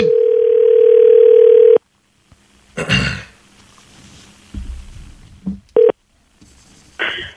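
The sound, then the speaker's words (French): A telephone dial tone, a steady tone lasting almost two seconds, cuts off. Handling clicks and a brief dialing beep follow, then quiet noises. “On l'appelle. OK. On avait besoin d'une pièce de quelque chose. Mm-hmm. Oui. OK, je l'ai. Alors, on le compose avec... ça va sonner.”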